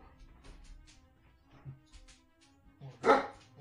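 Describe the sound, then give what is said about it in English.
Hellhounds in a tabletop fantasy role-playing game bark in scattered yips and woofs. Quieter barks come at uneven intervals, then one louder, harsher bark arrives near the end. “It's the hellhounds barking in the background.”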